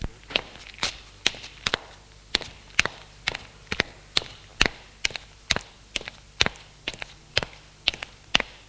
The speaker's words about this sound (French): entend ses pas au-dessus d'elle.